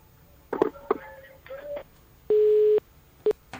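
Telephone line tones mark an incoming call: after a few brief chirpy sounds, a clean, steady tone holds for about half a second, followed by one short beep of the same pitch.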